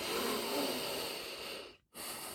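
A group breathes together during a yoga exercise, a soft steady hiss of breath that fades into a short silence before the next breath begins.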